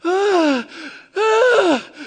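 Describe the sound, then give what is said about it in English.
Deep, heavy breathing turning into moaning: two long voiced moans whose pitch sags downward, each trailing off into a quieter breathy tail. “I'm breathing very deeply, and in the process of breathing deeply, I'm kind of almost moaning,”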